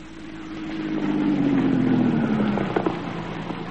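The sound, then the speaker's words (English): A car engine drives in from the farm toward a farmhouse. It swells to a steady hum whose low tone slowly falls in pitch, and a few faint clicks come near the end. “He should be driving in from the farm any minute.”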